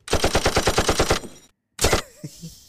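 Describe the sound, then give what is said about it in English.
Gunfire sound effect, a rapid machine-gun burst of many evenly spaced, loud shots, then a brief silence and a single further blast trailing off into a fading tail. “What could we possibly use that for? Shots fired!”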